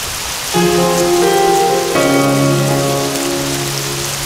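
Steady rain hiss runs throughout at an even level, with sustained musical tones layered over it that change chord twice.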